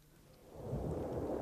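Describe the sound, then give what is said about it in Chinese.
An island thunderstorm with gale winds and heavy rain: a low, rolling thunder rumble builds after half a second into a steady roar mixed with the hiss of rain, fairly faint overall, with no talk. “外面仍然是狂风暴雨，闪电不时地划过半个天空，连接到地上，然后爆出一声震人心魄的雷声”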